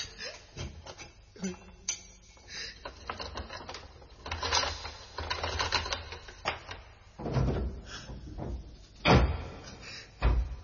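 A lock is opened and a prison cell door unlocked, giving a run of sharp metallic clanks and knocks at an irregular pace, with louder thuds near the end.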